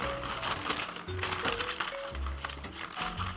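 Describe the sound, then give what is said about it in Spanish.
Crinkling and tearing of the crisp wrapping on a box of chocolates, a steady, quiet stream of rustles and small crackles throughout. “la voy a abrir delante de ustedes. Miren qué bonito, como viene todo aquí. Ya tenía que romper yo.”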